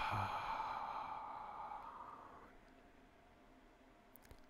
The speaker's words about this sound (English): take a deep breath. Exhale and relax.